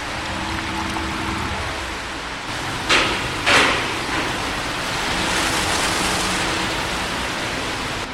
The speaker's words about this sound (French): donc là, on a effectivement le canal qui se remplit d'eau.